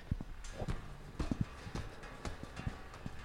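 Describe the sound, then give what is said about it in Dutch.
Footsteps climb a staircase in a multi-storey house on the way to the second floor: a steady run of hard, knocking steps with a clip-clop rhythm, faint against a light background hiss. “We gaan nu naar verdieping 2. En dan gaan we de trap op.”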